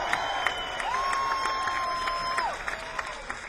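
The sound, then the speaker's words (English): Audience applause at the end of a live band performance: a steady patter of many hands clapping with crowd noise, and a held high tone sounding through the middle. “We sure would like to thank y'all for coming out and being such a great audience. Give it y'all a hand, everybody!”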